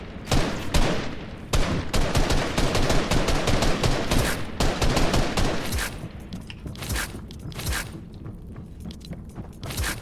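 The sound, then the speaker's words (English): Video-game gunfire crackles in many sharp, rapid shots, dense and loud through the first half, then thinning to more scattered bursts toward the end, with no talk. “stop shooting me, that's not nice. You need to get an actual, good gun.”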